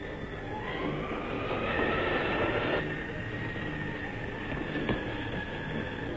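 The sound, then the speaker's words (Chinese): An express train arrives at a station with a steady, broad rumble and a thin, high squealing tone running over it. The sound stays at an even, moderate level throughout, with no voices. “注意注意，21次要进站了。 请站台上的旅客注意往后靠。”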